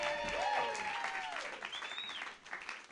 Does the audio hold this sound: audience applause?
yes